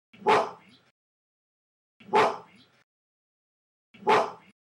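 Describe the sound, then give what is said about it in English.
A gorilla barks three times, with loud, sharp, evenly spaced barks and silence between each one. “This is the sound of a gorilla barking.”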